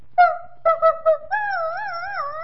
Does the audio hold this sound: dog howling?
yes